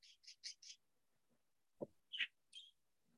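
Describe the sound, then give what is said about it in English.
Pet birds chirp: four quick high-pitched chirps in a rapid row, then after a pause a few more scattered calls, faint and with no talk. “Those are my birds in the background”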